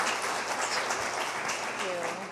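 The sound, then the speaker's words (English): Audience applause at a book talk, a quiet, dense rustle of clapping heard throughout, with some speech over it. “could we get another round of applause for the book?”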